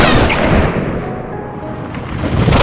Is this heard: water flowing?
no